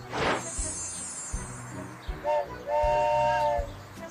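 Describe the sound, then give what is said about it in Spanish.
A train whistle blows in a short toot and then a longer sustained blast, over a low rhythmic rumble. “un tren”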